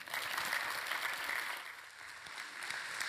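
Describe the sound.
Audience applause welcoming a guest speaker: soft but continuous dense clapping that holds steady for about three seconds.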